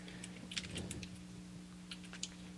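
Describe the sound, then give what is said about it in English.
Faint clicks of typing on a computer keyboard while entering a message in an online game chat: a few scattered keystrokes over a steady low electrical hum, with no voices. “Here, I'm going to type it in chat.”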